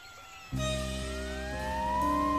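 An ambulance siren races along a highway, bursting in abruptly after half a second as loud, sustained tones, with one tone gliding slowly upward in pitch as the siren holds on.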